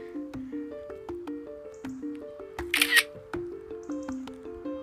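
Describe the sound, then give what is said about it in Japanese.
Camera shutter clicking repeatedly while taking time-lapse photos: a steady series of sharp clicks over a soft, repeating melodic tone, with a brief louder burst of hiss near the middle. “ラジオ中に写真をこんな長々撮るなっていうね”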